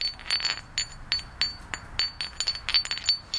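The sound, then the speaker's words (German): Flint stones are struck together again and again, giving many bright, high, silvery clinks in quick, uneven succession, each ringing briefly like glass. “Manche, die klingen kaum, wenn man sie aneinander schlägt. Oder andere wiederum. Hier habe ich ein Stück gefunden.”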